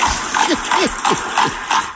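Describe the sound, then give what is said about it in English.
Horse pulling a buggy in Nappanee, Indiana, hooves clip-clopping in a steady, even rhythm of repeated hollow knocks. “You hear the horse over the mic. Yeah, okay, somebody's got a horse and buggy business.”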